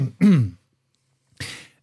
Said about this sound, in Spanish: voy a toser